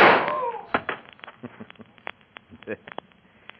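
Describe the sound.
A gunshot cracks open a scene in a Western radio drama, one sharp, loud burst that quickly decays, followed by quieter talking and a few light clicks.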